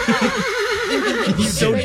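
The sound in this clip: A horse whinnies in one quavering, sustained neigh whose pitch wavers rapidly up and down, fairly loud and lasting just under two seconds.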